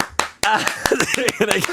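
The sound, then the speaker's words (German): An audience claps along in time with a chant, the crisp hand claps landing as many regular, sharp beats beneath a singing voice. “jetzt zeige ich euch, wie einfach das ist mitzuklatschen.”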